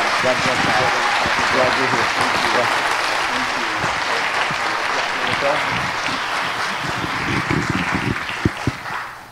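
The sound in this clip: A standing audience at All Nations Church gives a missionary sustained, dense applause lasting the whole stretch, with voices mixed in.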